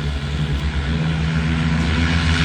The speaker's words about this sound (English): It takes off like a helicopter and flies like a plane. Meet the first locally designed electric vertical takeoff and landing aircraft, or eVTOL.